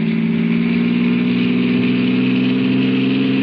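Car engine accelerating on a road through the Alleghenies: a loud, steady mid-pitched drone that runs unbroken from start to finish, with no talk over it.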